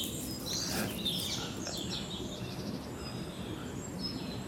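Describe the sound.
A flock of rose-ringed parakeets calls, thin high squawks and chirps scattered over a constant hiss of background noise, fairly faint, with no talk.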